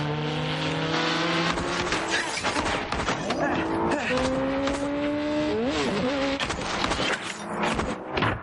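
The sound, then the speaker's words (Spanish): A car engine revs hard and accelerates during a chase, its droning, buzzing tone climbing and bending in pitch over a dense, noisy background. “Ethan acelera y lo arrolla. Los demás motoristas van tras el coche y disparan.”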